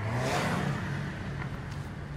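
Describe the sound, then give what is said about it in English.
Three cars speed down the center of a two-lane road, their engines a rushing, moderately loud roar that eases slightly toward the end. “see all three of them cars that just flew past us.”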